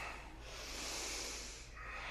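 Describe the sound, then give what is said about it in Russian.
Quick, forceful breathing through the nose during a kriya meditation exercise. It comes as a faint, airy, snorting hiss that swells slightly and then eases off. “Выдох. Быстрый вдох, выдох. Еще. Еще. Еще. Еще.”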